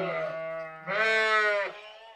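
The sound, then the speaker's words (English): Twin lambs bleating in a barn, their mother short of milk: two drawn-out bleats rich in harmonics, back to back, the second louder and higher-pitched. “Pair of twin lambs that their mother doesn't have enough milk.”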